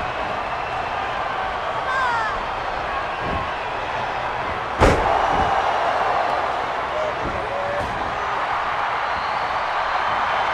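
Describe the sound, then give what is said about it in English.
A wrestler's scoop slam lands as one sharp, heavy impact on the ring midway through, over steady crowd noise while commentators talk. “he goes with that big scoop slam”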